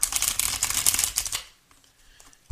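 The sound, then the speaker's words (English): Playing cards shuffled for a reading, a rapid crackling riffle lasting about a second and a half, then near silence broken by a short click at the very end. “May I have a card, please? Two cards came out.”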